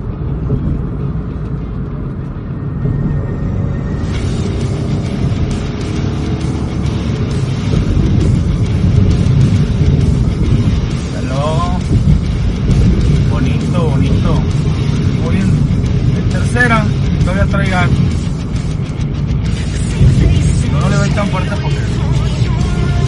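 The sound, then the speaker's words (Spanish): A Swift car engine drives up a steep slope inside a tunnel, giving a steady low rumble and road roar that continue beneath a person talking throughout. “Vamos a calarlo el carrito, el Swift, aquí en el túnel de la Loma Larga.”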